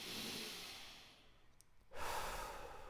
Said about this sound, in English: Go ahead and breathe in through your nose and out through your mouth.